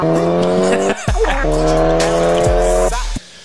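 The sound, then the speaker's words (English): A Ford Focus ST with red mud flaps, driven rally-style, roars with tires squealing: loud, continuous engine drone with shifting pitch and a high screech layered on top, cutting off abruptly near the end. “Focus ST owners thinking they're pro rally drivers after installing red mud flaps and gluing the plastic tow hook to their bumper.”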